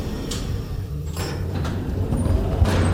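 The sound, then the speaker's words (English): Elevator running with a low, steady hum and rumble, broken by a few soft sliding and clunking sounds as it moves. “This elevator will take us near the cold storage.”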